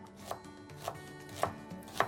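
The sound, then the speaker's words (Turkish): A knife thinly slicing a quince on a board gives four crisp, evenly spaced cuts, each a sharp short tap over a quiet background. “Hemen şöyle ayırdım. İnce ince doğruyorum.”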